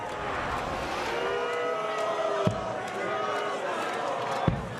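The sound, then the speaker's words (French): Crowd at a darts match reacting as a leg is won, a dense continuous murmur under a talking voice, broken by two brief sharp knocks. “Et le public n'est pas très content hein, de voir Hitler gagner des manches.”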